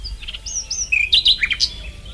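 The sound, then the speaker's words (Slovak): A small bird chirps in a quick series of short, high-pitched tweets that grow louder and denser in the second half, with no voices. “Aha, vtáčik.”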